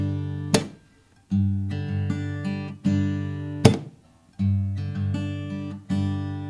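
Strummed chords in a rhythm pattern with a muted strum on beat two: sustained ringing chords broken twice by a sharp, percussive chop that cuts the sound short before the strumming resumes.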